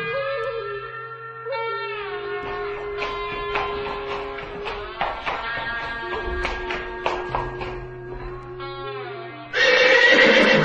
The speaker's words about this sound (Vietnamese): Cuối cùng con ngựa hí to lên và dừng lại sau một cuộc hành trình dài.